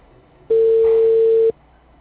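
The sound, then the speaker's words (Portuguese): Telephone dial tone heard while calling again, a single steady mid-pitched tone lasting about one second, starting and stopping abruptly against near silence. “Mas eu ligo de novo.”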